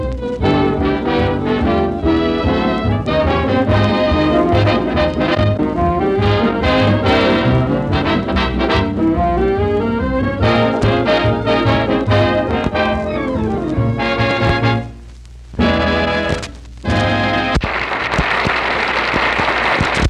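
A full orchestra plays a lively, upbeat tune, loud and continuous, with two brief breaks near the end.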